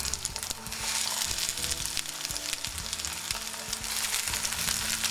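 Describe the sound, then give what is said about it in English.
Eggplant slices coated in breadcrumbs fry in about a tablespoon of oil, giving a steady, dense crackle and sizzle with scattered sharper pops and no talk over it. “you're going to have to use several amounts of oil depending how it absorbs. First one tablespoon spread around. We've got our eggplant coated with breadcrumbs.”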